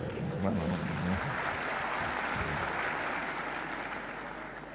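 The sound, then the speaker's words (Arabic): An audience claps during a religious talk, a steady, even wash of many hands applauding, with a voice heard briefly near the start; the clapping eases a little toward the end. “والله ما ادري المصفقين رجال ولا نساء، انا مش شايف. صفقوا البعض وخلاص يعني.”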